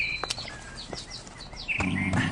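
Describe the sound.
Pet birds sing in a string of short, high, bright chirps and quick whistled notes, scattered irregularly and at moderate loudness, with no talking.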